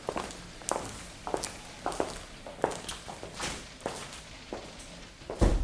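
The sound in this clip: Footsteps of a boy and a police inspector walking to an adjoining room: many soft, uneven steps in a steady walking rhythm, ending with a louder thump.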